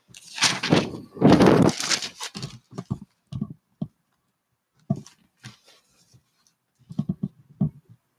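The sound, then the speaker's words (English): Someone writing a list by hand, short scratchy strokes in bursts separated by pauses, louder and denser at the start and then sparser. “So I'm writing this down here.”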